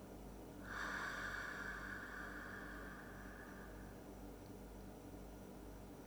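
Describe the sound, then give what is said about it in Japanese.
A long, faint breath is drawn deeply in through the nose and released through the mouth as part of a relaxation breathing exercise. It is a single soft, airy whoosh of several seconds that fades into quiet. “鼻から大きく息を吸って、口から吐きましょう。”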